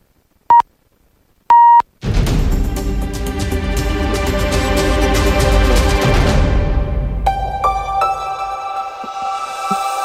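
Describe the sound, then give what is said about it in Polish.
Time signal beeps marking the hour on a Polish radio station: two short, high electronic beeps, then a loud, dense burst of music. “W tej chwili zbliża się godzina piąta, w związku z tym 15 chciałem powiedzieć. Sygnał czasu.”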